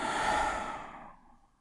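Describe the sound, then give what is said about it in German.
A single deep exhale through the mouth after a nasal in-breath, as in a relaxation breathing exercise: a soft, breathy rush of air that starts full and gradually fades away. “wir atmen einmal tief durch die Nase ein, durch den Mund aus.”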